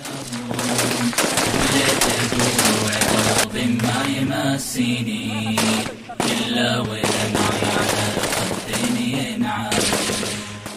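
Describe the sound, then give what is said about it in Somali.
Gunfire in a filmed ambush on a military truck: dense, sustained bursts of rapid shots fill the whole clip at a steady loud level, with a low droning hum running beneath. “Bay muqaalka hor dhiciisu ayaa lagu daawan karaa mujaahidiinta oo ku taqaddumaya askartii ay kamiinka u dhigeen kuwaas oo markii ay xabadu ku bilaabatay isaga firxaday goobta”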